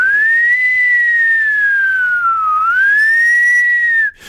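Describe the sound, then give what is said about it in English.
A voice imitating an ambulance siren with a loud, sustained, pure whistle-like tone that glides slowly down in pitch, climbs back up and stops abruptly just before the end. “Now, the woo-woos, by this he means the sirens on an ambulance. You know, woo.”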